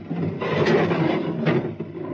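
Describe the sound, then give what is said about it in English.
A door fitted with a sonic lock slides open with a single continuous scraping, rubbing sound that lasts well over a second. The sound is moderately loud and no voices are heard. “The door has a sonic lock. I know the combination. Watch. 2023. Open sesame.”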